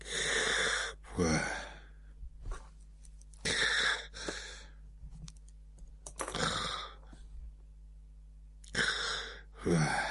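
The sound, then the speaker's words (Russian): Snoring from a man asleep on a couch after dinner, his head on a gold-embroidered silk cushion: a slow series of loud, rasping breaths with quieter wheezy rattles between them. “Храпел он.”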